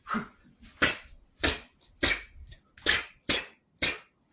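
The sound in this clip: Crossbow bolts fire in a video game fight: seven sharp, snapping shots at a fairly steady pace, each a short bright burst. The first is softer and the rest louder, with quiet gaps between them.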